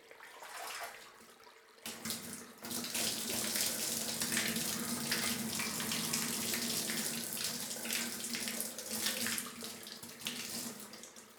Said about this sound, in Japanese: 仕上げにもう一度お湯で流します。